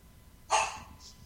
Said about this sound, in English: That's my dog, sorry.